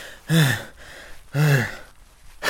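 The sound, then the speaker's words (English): Heavy, voiced gasps of someone out of breath while hiding in a barn: a few loud, ragged breaths separated by short pauses, with no talking. “I need to catch my breath anyway.”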